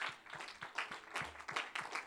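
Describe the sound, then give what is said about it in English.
A church audience gives a hand clap of praise to the Lord, faint but distinct claps falling in a fairly steady rhythm, several per second, across the brief span. “Can we just give the Lord a hand clap of praise?”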